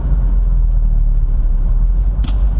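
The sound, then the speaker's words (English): A convertible car's engine runs with a steady, loud, low rumble that stays even throughout, with no voices over it. “this is a convertible, by the way. Yeah. That's why you hear the engine.”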